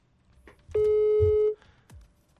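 Ringback on an outgoing phone call: one steady mid-pitched ring tone lasting under a second, with soft low rumbles and faint noise around it.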